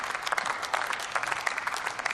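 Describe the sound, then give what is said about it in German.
Applause as scattered, uneven clapping, with many individual sharp claps standing out at moderate loudness throughout. “kann man klatschen, genau.”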